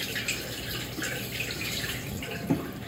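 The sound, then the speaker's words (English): Hands being washed under a running tap during tortilla making: a steady, faint hiss of flowing water with soft splashes and one slightly louder splash near the end. “going to wash my hands to show you, because um, it's better to show you when my hands are clean.”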